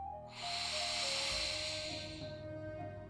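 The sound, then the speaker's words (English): One long, deep breath in fills the lungs with a steady breathy hiss that rises quickly, holds and then fades, over a faint sustained tonal hum. “Take a moment to breathe deep and feel the air filling your lungs.”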